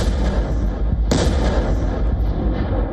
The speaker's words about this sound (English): Just a devastating blast that tears through trenches, bunkers, and buildings, leaving behind a crater where a defensive position once stood.